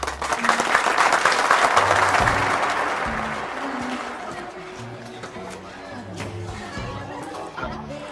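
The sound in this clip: An audience claps together at a host's cue. The clapping is loud and dense at first, then fades away, and people talk over the quieter tail.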